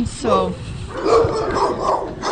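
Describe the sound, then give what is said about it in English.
Excited barking from bigger dogs in a dog hotel, a few sharp yelping barks rising out of a busy mix of voices and kennel noise. “Now, we're quite a lot of bigger dogs in here, and we can hear a little bit of noise, and they're getting excited.”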